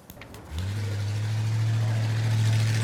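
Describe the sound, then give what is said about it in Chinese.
Engine of a driverless classic 1965 Ford Mustang, a low, steady rumble that starts after a brief quiet moment with faint clicks and then runs evenly at idle. “这款经典的1965年福特野马实际上是无人驾驶的，这可能解释了它不均匀的转向。”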